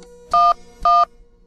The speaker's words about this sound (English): as we take a closer look at the emergency response system in Oakland, we're going to trace the path of a 911 call from a cell phone, starting at the beginning.